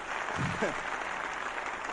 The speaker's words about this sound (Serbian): Jedan aplauz.